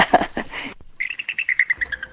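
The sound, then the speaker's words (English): A female bald eagle calls in a rapid series of many high, piping chirps, clear and fairly loud. “She's very vocal, and she likes to chat, and she's sort of giving her rendition of poor me, get over here, in bald eagle.”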